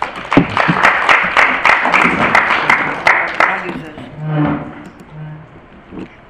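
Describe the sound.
An audience applauds in welcome for a justice court judge at a judicial training class: many hands clapping steadily for about four seconds, fading as a voice starts speaking.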